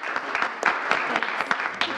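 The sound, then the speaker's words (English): Loud, enthusiastic audience applause, a dense wash of overlapping claps sustained throughout, with a few sharper individual claps standing out. “It was an applause that could have lifted the roof off any theater on Broadway.”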